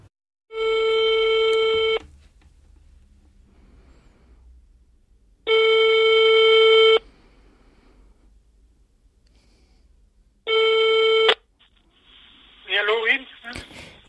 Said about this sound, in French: on passe un coup de fil